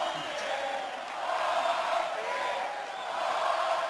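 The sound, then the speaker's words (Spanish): A baseball stadium crowd in Valencia roars as it calls for a strikeout, a dense, continuous wash of many voices that swells and eases a couple of times. “Ponche pide el público en Valencia.”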